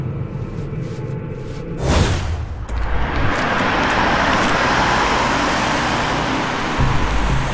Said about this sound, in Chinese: 这是案发现场门前的一条大街，叫张西路。